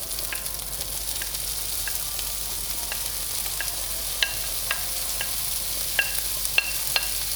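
Food with paprika frying and sizzling in a pan: a steady soft hiss runs under scattered sharp crackles and pops, which come more often and louder toward the end.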